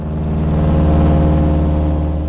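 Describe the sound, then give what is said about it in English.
Engine of a tiny seaplane in flight: a loud, continuous low drone with a dense buzzing hum that holds steady and even throughout, with no voices. “It's not a comfortable ride on this tiny seaplane to get to the Great Bear Rainforest, but it's worth it.”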